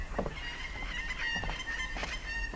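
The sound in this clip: Birds call in nasal, goose-like honks that blend into a steady, rushing background noise. The calls are fairly faint and continue throughout, with no clear pauses.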